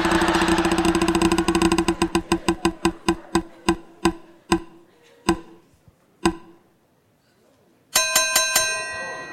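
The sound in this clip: A prize wheel spins with many rapid clicking ticks that gradually slow and spread apart until the wheel stops. A bright, ringing chime follows.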